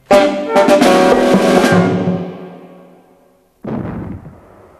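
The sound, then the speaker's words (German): Two small cannons fire salute shots at an outdoor garden festivity: two loud booms, the first trailing off into a long rumbling decay before the second cracks out sharply near the end. “Zwei kleine Kanonen schossen harmlos wie ein Spielzeug zum blauen Himmel an. Beim Zeichen der Böllerschüsse”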